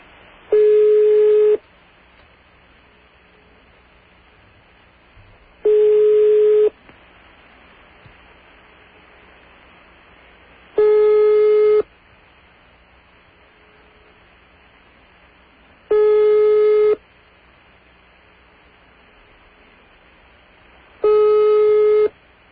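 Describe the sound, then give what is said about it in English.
Telephone line tones on a call to a phone in Alma Atoll: five loud, steady, harmonic-rich beeps, each about a second and a half long, repeating at even intervals of roughly five seconds, with faint line hiss in the gaps. “We have a line. That's a phone in Alma Atoll, I believe”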